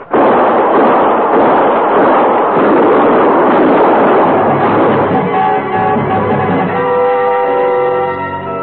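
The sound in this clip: Heavy gunfire from a radio drama shoot-out: a loud, continuous roar of many overlapping shots that later thins as steady tones rise beneath it.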